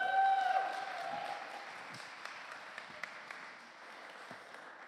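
Applause from an audience welcoming a guest teacher at a church morning service. Steady, dense clapping starts loud and slowly fades. No voices are heard over it.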